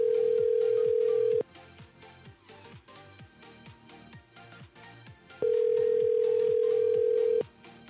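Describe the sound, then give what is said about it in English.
Ringback tone of a returned phone call: two long, steady mid-pitched tones separated by a few seconds of quiet. Rhythmic music plays underneath throughout. “I'm going to call back because that's what he said to do, right?”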